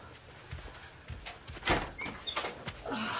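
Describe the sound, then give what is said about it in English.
A hotel room door opening: a few soft knocks and thumps, then a louder scraping sweep and a few more clicks, with no voices. “Opening the door”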